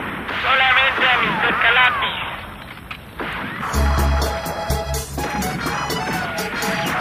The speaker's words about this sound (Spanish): Nos están exterminando. Disparen solamente al Mr. Calapi.